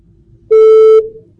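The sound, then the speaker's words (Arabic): A telephone tone marks a dropped call: one clean, mid-pitched beep lasts about half a second over faint background hiss, then fades quickly. “أبو أحمد فقدنا اتصال”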